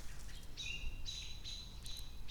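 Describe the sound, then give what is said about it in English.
Agitated birds call in a rapid series of high, drawn-out whistling squawks, four or so overlapping bursts over a low steady background rumble, with no voices. “But those birds are still wigging out.”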